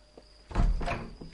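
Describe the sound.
A door sound as someone arrives at it: a low, dull thunk followed by a brief, rough rustle, fairly quiet.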